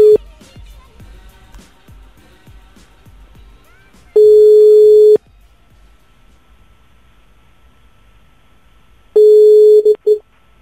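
Telephone ringback tone while a prank call is being placed. A run of faint regular clicks is followed by two loud, steady, level tones of about a second each, with a long quiet gap between them.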